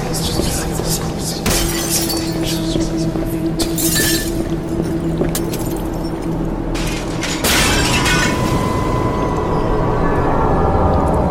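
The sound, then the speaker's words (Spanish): Mirrors being smashed in a haunted-mansion radio drama, with several sudden crashes of breaking glass over a steady, droning background. “Debemos de romper los espejos, para así poder liberar las almas. Sí, sí, empieza por allí.”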